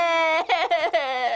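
A baby crying: a loud, drawn-out wail, a few short choppy sobbing bursts, then another long sustained wail, heard alone.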